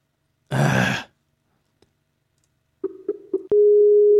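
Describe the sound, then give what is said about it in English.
Skype call connecting tones, a short breathy burst, then after a pause three brief low electronic pulses and a sustained steady tone. “Skype noises. Yay! Everyone loves Skype noises on a live show.”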